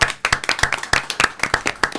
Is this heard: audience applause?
yes